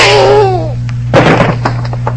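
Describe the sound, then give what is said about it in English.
A single sharp gunshot rings out in an old radio drama. A brief voiced exclamation comes first, then the loud, crackling blast, which decays into a rough tail over a constant low hum. “All right, Barco, shoot him now.”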